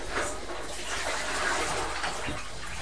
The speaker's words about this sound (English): Putting more water and washing up, won't it